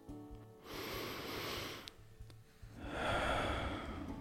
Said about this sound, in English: I want to start today off with a quick moment of gratitude, a deep breath.